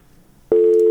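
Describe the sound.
A disconnected telephone line gives a loud, steady electronic tone that switches on abruptly halfway through after near silence and holds unbroken to the end.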